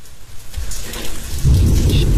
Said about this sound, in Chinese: 下雨，雨声来了， 声是我自己录的山里的雨声。 哦，是真实的环境音， 真雨啊。 哇哦， 那雷都快把我屋子劈碎了。